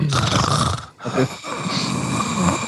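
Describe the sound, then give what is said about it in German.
Heavy, rasping breathing with a snore-like texture, loud and noisy, broken by a brief pause near the middle before it resumes. “Was ist denn das eigentlich für ein schweres Atmen?”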